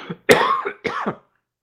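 Two rough throat-clearing coughs, each a harsh, breathy burst lasting under half a second, come one after the other after a faint short lead-in, with silence following.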